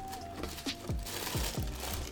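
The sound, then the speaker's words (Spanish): Paper crinkles as a box holding a pair of unisex sneakers is opened, giving a few crisp rustles and crunches at moderate loudness with no talk. “Entonces, Vamos a abrir la caja.”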